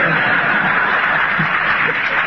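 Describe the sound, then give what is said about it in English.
Audience laughter and applause during a talk, heard as a dense, continuous wash of clapping that stays even and fairly loud for the whole clip. “That's the only way I can interpret the laughter and applause.”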